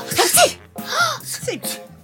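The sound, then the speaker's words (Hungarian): A voice imitates sneezing three times in quick succession, each a loud, exaggerated burst with a breathy onset and a voiced release, spaced at an even rhythm. “S nagyot tüsszentettek. Ők is.”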